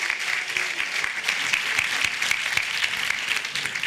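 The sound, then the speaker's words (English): Enthusiastic audience applause for a panel at an event: dense, sustained clapping that stays steady and fairly loud for the whole stretch, with no talking above it. “And once again, a great round of applause to our panel.”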